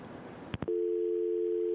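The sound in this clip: A steady, even telephone line tone holds after a phone caller's line drops. It is preceded by two brief, sharp clicks and stays at a constant level to the end.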